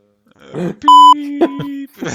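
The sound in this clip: A single short electronic beep, a clear steady high tone lasting about a quarter of a second, cuts in between bursts of talk, sitting over a lower sustained tone.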